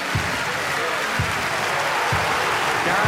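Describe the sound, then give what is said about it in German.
Crowd applause for a winner: a dense, continuous wash of clapping that holds at a steady level throughout, with a few soft low thumps beneath it. “Jubel für den Sieger. Applaus! Applaus!”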